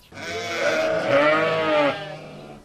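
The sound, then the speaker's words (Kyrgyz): An Edilbay sheep bleats in a farmyard with one long, loud, wavering call of nearly two seconds that fades out at the end. “Азыр короосунда Эдилбай породасындагы 300 жакын кой бар.”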